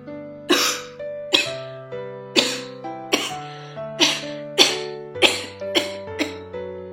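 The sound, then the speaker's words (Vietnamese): A man coughs violently in a long run of dry, harsh hacking bursts, about ten of them at a steady, rapid rhythm, over a faint steady tonal background. “Nghiêm Phúc đột nhiên ho khan dữ dội.”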